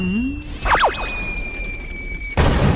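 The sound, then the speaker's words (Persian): A cartoon bomb explosion rips a whole pond out of the ground. A sustained whistling tone and a few quick squeaky effects lead into a sudden loud, broad, noisy blast that carries on to the end. “بمب مخصوص باگی، کل حوض از جاش کنده شد.”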